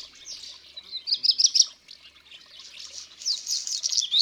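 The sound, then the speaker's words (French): Black redstart song: a few high, thin, scratchy warbling phrases, loudest in two bursts, sung alone against near silence. “C'est un rouge-queue. Il chante toujours sur les toits.”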